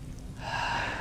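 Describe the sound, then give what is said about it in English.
A deep breath drawn in, a soft airy inhale that starts quietly and swells into a steady, breathy rush lasting under a second. “take a really deep breath right now.”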